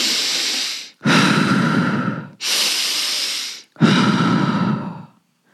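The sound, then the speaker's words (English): Deep, active breathwork for movement: four long, loud breaths of airy rushing sound, deep inhales alternating with exhales, each lasting about a second, separated by brief pauses and with no talking. “We are going to use the halo active breath. So we're going to let this nice deep inhale and exhale.”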